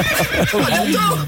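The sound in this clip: A horse neighs in a loud, sustained whinny with wavering harmonics and a pitch that slides downward toward the end, lasting just over a second.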